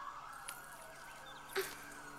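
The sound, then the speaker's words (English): Faint emergency sirens wail in a steady, high tone, with a brief louder burst of noise partway through. “I can't think with all these sirens.”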